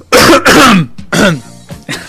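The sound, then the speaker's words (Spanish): A person clears their throat loudly, a few harsh rasping bursts in quick succession, the last ones shorter and weaker. “lo que voy a hacer es... Primero voy a carraspear.”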